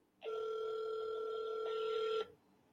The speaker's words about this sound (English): the phones are ringing off the hook.